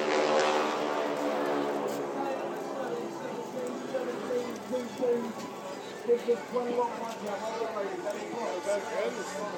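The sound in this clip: Propeller aircraft of a wing-walking display team flying overhead, a steady harmonic engine drone that is loudest at the start and slowly fades, with people talking over it.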